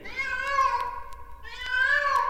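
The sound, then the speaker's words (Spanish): A grumpy, shaggy, bullying cat meows twice, each a drawn-out, whining, moderately loud cry, separated by a short pause, heard alone without talk. “este gato matón, cascarrabias y greñudo que se llama Bigotazos”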